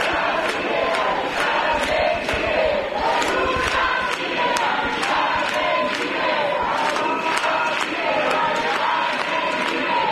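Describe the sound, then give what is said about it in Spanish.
Crowd seated outside the Congress of Deputies in Madrid, held back by a police cordon, chanting in a steady, regular pulse, many voices keeping a repeated rhythmic beat throughout. “Así suenan las inmediaciones del Congreso de los Diputados, con una multitud sentada frente al lo más cerca que han podido llegar, que lo permite el cordón policial, a las puertas del Parlamento.”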